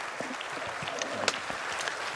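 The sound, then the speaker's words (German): Warm audience applause welcoming a speaker to a talk, steady, fairly soft clapping from many hands with a few sharper individual claps standing out. “Gibt ihm bitte einen warmen Applaus.”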